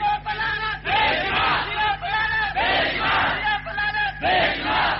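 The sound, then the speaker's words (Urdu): A crowd chants the slogan "la'nat" (curse) in unison: loud, forceful shouted bursts repeated several times with short pauses between them. “فقولو تم پہ لازم ہے کہ تم بول اٹھو لعنت اللہ علی شرکم، اور تمہاری بدماشی پہ رب کی لعنت ہو.”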